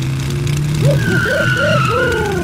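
A pickup truck engine hums steadily as the vehicle drives up, while warbling tones rise and fall over the low rumble; no one speaks.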